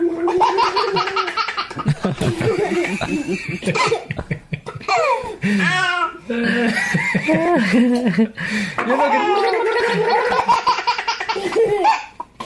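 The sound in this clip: A big brother makes a bubbling gargling noise with his mouth while his baby brother bursts into repeated belly laughs, the gargles and high giggles trading back and forth with brief pauses and a small cough.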